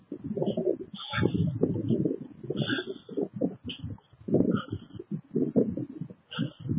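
A bird coos over and over in low, throaty, uneven bursts, with a few brief higher chirps scattered between the calls.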